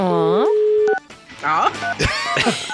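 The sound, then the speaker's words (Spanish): A telephone call is dialed on a Spanish-language morning radio show, with brief electronic dialing tones amid sweeping tonal sounds, followed by people talking. “Vamos a llamar al Instituto Milford.”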